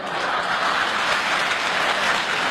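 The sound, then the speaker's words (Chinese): Warm applause from an audience of elderly people at a Beijing opera and folk-art performance, dense continuous clapping at a steady loud level throughout, with no pauses. “你看，爷爷奶奶们给你这么热烈鼓掌，高兴不高兴？”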